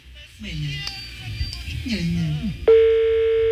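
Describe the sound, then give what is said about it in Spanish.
A telephone line gives a steady electronic tone as another number is dialed. It starts abruptly after a moment of voices and holds at one even pitch to the end. “Marcando otro número.”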